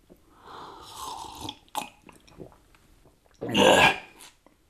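A person gulps down a potion of water mixed with henbane, making a few wet, breathy swallowing and mouth sounds, with a louder gulp near the end.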